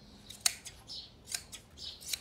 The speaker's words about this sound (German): Aber ich bin überrascht, wie gut das geht, hätte ich nicht gedacht, mit so einer Schere.